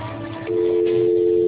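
A steady telephone line tone sounds as a call disconnects, a constant mid-pitched hum that starts partway through over faint line noise and holds unbroken to the end.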